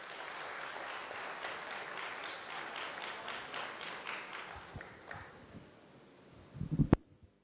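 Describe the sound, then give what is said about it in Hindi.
Faint applause from an audience at a ceremony welcoming a guest, a dense steady patter that thins out and fades, followed by a few louder thumps near the end. “ताली तो बजाइए।”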